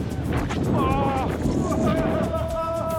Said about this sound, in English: We're a bit concerned about the wind.